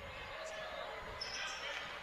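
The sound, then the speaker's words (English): Basketball bounces as a ball is dribbled on the court during a close game, heard faintly amid steady crowd noise and speech. “Benton has it on the right wing, dribbles to the corner now.”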